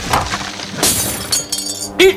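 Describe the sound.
Glass shattering as glassware and dishes fall from a table during violent shaking, with a few bright crashes and clinks spread across the span and a brief voice cry at the end.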